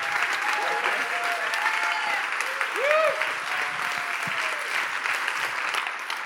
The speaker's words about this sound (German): Und deswegen wollen wir Pastor Andreas Sommer mit einem Riesenapplaus gemeinsam begrüßen in der K21.